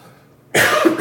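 Coughing and throat clearing from a tickle in the throat: after a near-silent moment, one harsh, loud cough bursts out and rasps on to the end.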